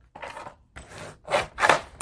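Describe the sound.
Paper is folded back on itself against an earlier crease while a book is made from a box. Several crisp, rustling creasing strokes come in short bursts, with the last ones louder and brighter, and no one talks.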